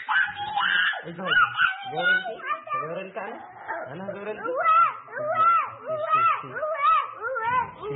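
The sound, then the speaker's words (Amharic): A four-and-a-half-year-old girl, an injured victim, cries and moans in pain, with continuous wavering wails that rise and fall in pitch. “ይህ ደግሞ የሌላ ተጠቂ ህፃን የስቃይ ድምፅ ነው።”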